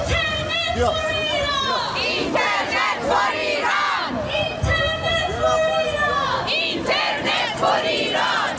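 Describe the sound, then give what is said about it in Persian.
Iranian protesters at a rally and march in Stockholm chant slogans against the Islamic Republic, a loud crowd of many voices shouting in steady rhythmic unison throughout. “برای 20مین هفته متوالی ایرانیان ساکن استکهلم با برگزاری تجمع و راهپیمایی اعتراضی علیه جمهوری اسلامی و سرکوب معترضان در ایران شعار دادند.”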